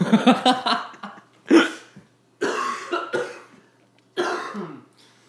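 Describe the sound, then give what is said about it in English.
A person coughing hard, with several harsh, throaty bursts arriving in uneven clusters and short pauses in between. “I'm coughing so much.”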